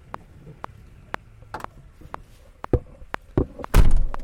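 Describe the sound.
Door slammed shut: a series of faint clicks and light knocks, then a single loud, heavy bang near the end.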